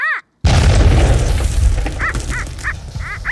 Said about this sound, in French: il y a une dynamite qui va exploser